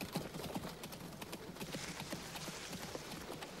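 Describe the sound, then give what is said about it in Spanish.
Hooves of a horse pulling a carriage toward the door of a hacienda: a steady run of many clip-clop beats, fairly faint, over a constant hiss and rumble. “Un coche de caballo se detiene ante la puerta de la hacienda.”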